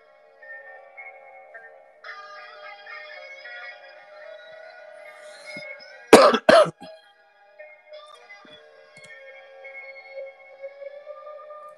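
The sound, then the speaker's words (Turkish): A person with a burning chest coughs twice, sharp and loud in quick succession. The coughs stand out over a faint, steady tonal background that is otherwise quiet. “Öksürdükçe ciğerim yanıyor.”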